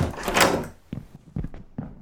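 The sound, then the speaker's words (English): A door opening in an office: a brief rush of broad noise, then a few soft, separate thunks and clicks of the latch and panel, fairly quiet. “Close the door.”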